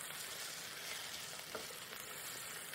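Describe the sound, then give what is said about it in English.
Steady, faint sizzle of vegetables frying and caramelizing in olive oil, a continuous crackling hiss that carries on for the whole stretch with no talking. “I'm going to add another little splash of olive oil, or whatever oil you like to use. And we are going to let those kind of caramelize up.”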